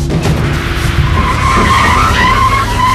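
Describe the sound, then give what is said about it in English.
A Cadillac carrying mobsters squeals its tires as it speeds away from a supermarket. The skid is loud and continuous, with engine roar beneath a steady high-pitched squeal throughout. “The Cadillac speeds away.”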